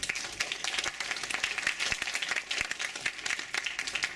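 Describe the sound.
Audience applause welcoming a speaker at a special screening and discussion event, a dense, steady wash of many hands clapping that stays loud and even for the whole stretch, with no voices over it.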